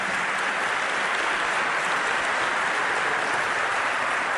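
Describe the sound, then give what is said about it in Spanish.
A church audience applauds during an evening worship service, a dense, steady clapping that stays loud and even for the whole clip with no voices over it. “Demos un aplauso fuerte al Señor en esta noche.”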